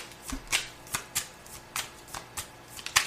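Playing cards being shuffled and dealt: a rapid series of crisp, papery flicks and snaps at irregular intervals, with no talking.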